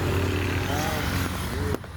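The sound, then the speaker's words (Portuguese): Motorcycles pass one after another on the BR-040 highway, a steady low engine drone that holds throughout, with a voice speaking over it before it drops away sharply near the end. “Ah, não. É as motos. Meu Deus do céu, uma atrás da outra. Aqui na BR-040, aqui, ó.”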